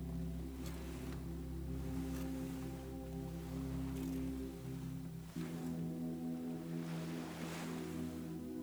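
Ocean swell rolls in off a beach toward open water, sounding as soft, broad washes that rise and fade every few seconds. A steady low tonal drone runs underneath the whole time.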